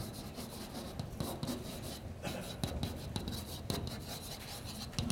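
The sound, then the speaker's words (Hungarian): Notes being written up during a lecture, heard as faint scratchy rubbing strokes that come in short, irregular bursts with brief pauses between them. “Ezeket nem fogom felírni. Azt írom föl, hogy további feltételek.”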